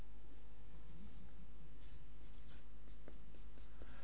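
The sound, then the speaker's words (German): A pen scratches across paper in faint, quick handwriting strokes, several short scraping marks following one another over a steady low hum, with no talk. “Also schreibe ich noch bitten dazu, ne?”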